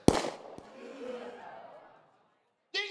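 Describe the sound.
A live-ammunition Colt 45 revolver fires a single sharp, loud shot, followed by a fading tail. A voice briefly starts up near the end.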